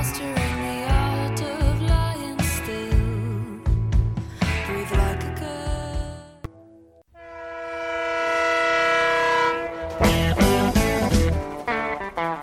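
Train sound effect in a radio jingle for a weekly blues music show: rhythmic music runs for several seconds, then a loud sustained train horn blast rings out alone before the music returns.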